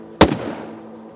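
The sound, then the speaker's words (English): A single loud gunshot: one sharp crack that fades quickly into a short ringing tail. “My first shot blew its brains out, splattering Huzzy with gore.”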